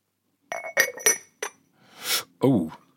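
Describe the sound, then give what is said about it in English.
Two pieces of an object are knocked together, giving four bright, glassy clinks with short ringing tones, followed by a softer scraping sound. “That is some sort of stirring device. That's for a pestle and mortar.”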